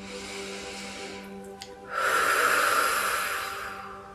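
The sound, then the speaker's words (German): A deep breath is drawn in through the nose and let out through a slightly open mouth. The soft, airy rush swells and then slowly fades over a low, steady hum. “Und atme jetzt auch hier noch einmal ganz tief durch die Nase ein und durch den leicht geöffneten Mund alles aus.”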